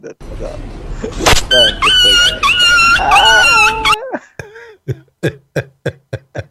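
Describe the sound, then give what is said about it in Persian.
Dog yelping: loud, drawn-out, high-pitched whining cries, then a rapid string of short, sharp yelps. “چی بود این صدای سپارکی بود؟ دیدی؟ نه دیدی سگو میزنن میترسه جیغ میکنه. آره دیگه میگم روی بنده خدا صدای سگ من بود.”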